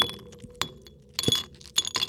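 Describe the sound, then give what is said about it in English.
Ice dropped into a highball glass, a few faint bright clinks and rattles of cubes against glass, scattered irregularly over a quiet background. “First, start off with a highball glass and some ice.”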